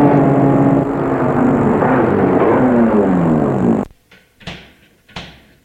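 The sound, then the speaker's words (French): A car door is shut on a vehicle with its brakes locked: a few short, solid knocks come after a long, loud, steady noise that cuts off abruptly. “Il bloque les freins et ferme la porte.”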